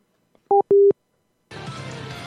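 A telephone gives two short touch-tone beeps in quick succession while someone dials, the second a little longer. A steady hiss of line noise follows.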